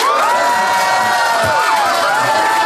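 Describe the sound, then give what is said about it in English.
Loud, sustained cheering and whooping from a debate audience voting for a team, with many excited voices shouting together without a break for the whole stretch. “But if you think John and Fanshawe made the best case, please applaud now.”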